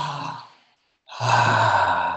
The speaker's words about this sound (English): All right, everybody take a good deep breath.